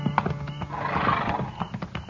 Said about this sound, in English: He had mules. This man's got horses.